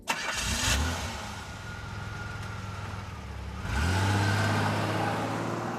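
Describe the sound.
A car engine cranks and catches, settles into a steady running hum, then revs again with a rising pitch and holds a loud, even drone to the end.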